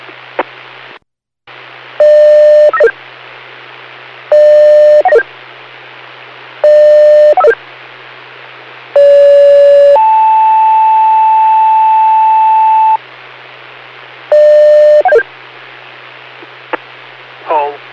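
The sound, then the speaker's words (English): Fire department pager test tones for a weekly test page. Several short beeping tone bursts come at intervals, one leading straight into a steady held tone of about three seconds, all over a constant bed of radio static hiss. “North Pike Fire, weekly test page. Test page only, respond on Alpha, come on 1806.”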